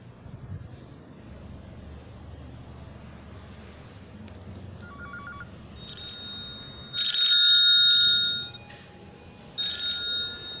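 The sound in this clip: A telephone rings for an incoming call in a few short, bright bursts of electronic ringing. The bursts grow louder toward the end and rise over a faint, steady background hiss.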